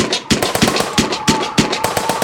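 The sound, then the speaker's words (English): Gunshots are fired at the player in a video game set in Detroit, many sharp, loud cracks in quick, irregular succession. “Oh no, they're shooting at me. Oh God, oh geez, mayday. I have been hit, mayday.”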